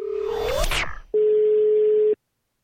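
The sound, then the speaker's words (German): Telephone tones as a call is placed to a listener: a jumble of electronic sweeps and shifting tones, then a single steady mid-pitched tone lasting about a second before silence. “ich werde jetzt äh, den Jonas anrufen, der sich angemeldet hat.”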